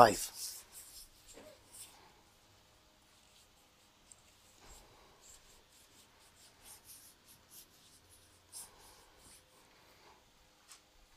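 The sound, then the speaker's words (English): Bible pages being turned during a church service make faint, papery rustles and soft brushing scrapes, with a slightly louder flutter at the very start and scattered quiet swishes afterward. “I love when the pages turn.”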